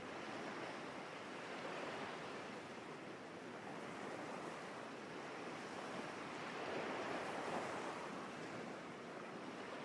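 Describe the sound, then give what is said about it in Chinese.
Ocean waves gently wash onto a sandy beach in a continuous soft roar of surf. A light wind blows along with it, and the swell rises briefly in the latter part before easing back. “温柔地拍打在岸上，拥抱着沙滩，又在缓缓退去。”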